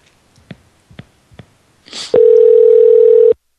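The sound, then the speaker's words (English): A steady telephone dial tone sounds while calling a toll-free number, holding one even pitch for just over a second. A few soft clicks and a brief rustle come before it. “let's call this number. It's a toll-free number, so maybe we'll get somebody online here.”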